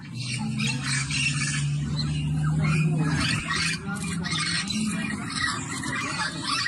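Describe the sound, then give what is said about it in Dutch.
Harsh, squawking calls of yellow-shouldered amazon parrots on Aruba, repeated many times in a dense, continuous chorus over a steady low hum. “Dat is een papegaaiensoort die op het eiland zelf bekend staat als Lora. De vogel was al meer dan 50 jaar verdwenen, maar is toch nog steeds belangrijk voor het eiland. De Lora klinkt zo.”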